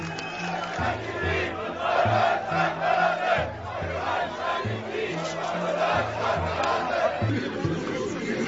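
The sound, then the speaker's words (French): A crowd chants a rallying cry against Chancellor Merkel, the far-right AfD slogan 'Merkel must go', in Germany. Loud massed voices repeat the phrase in a steady, regular rhythm. “Les intentions de vote augmentent pour le parti d'extrême droite, AfD, Alternative für Deutschland, Alternative pour l'Allemagne, dont le cri de ralliement contre la chancelière devient « Merkel doit partir ».”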